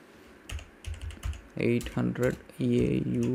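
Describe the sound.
Quick keystrokes on a computer keyboard as a currency conversion is typed in, a run of light clicks followed by a person talking over further tapping.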